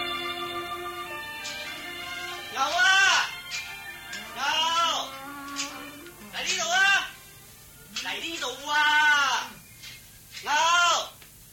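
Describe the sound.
Old ox lowing in a dramatized Buddhist tale, several drawn-out calls that arch up and back down in pitch, separated by short gaps over a faint steady tone.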